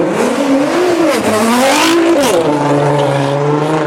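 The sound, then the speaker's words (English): A turbocharged V6 car engine revs loudly, its tone swelling and dipping through a couple of throttle blips before settling into a steady, lower drone. “Yeah, that sounds pretty good. It's turbocharged too. It's a turbocharged V6,”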